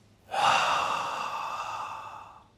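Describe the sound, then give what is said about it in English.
One slow, deliberate breath during a calm breathing exercise comes as a single long, airy whoosh. It swells quickly, then fades gradually over about two seconds, soft and alone. “So let's breathe slowly in through our noses. Then slowly breathe out through our mouths.”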